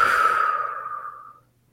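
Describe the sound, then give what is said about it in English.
A single slow, deep breath taken during a guided breathing exercise. It is a soft, airy rush that starts strong, then fades gradually over about a second and a half into near silence. “And just continue to do that for a minute or so. Just a slow inhale and exhale.”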